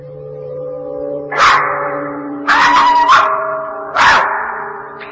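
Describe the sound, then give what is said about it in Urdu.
A dog barks a few times in loud, sharp bursts separated by short pauses, with no talking. “یہ تو کتے کی آواز تھی.”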